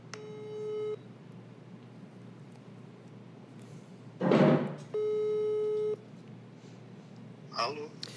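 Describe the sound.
Ringback tone of an outgoing telephone call waiting to be answered: two long, steady electronic tones, each about a second long and about four seconds apart. A short burst of noise falls between them, and another comes near the end.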